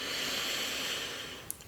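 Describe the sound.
A slow, deep breath drawn in during a guided breathing exercise: a soft, steady airy hiss that fades gradually, followed by a brief faint click near the end.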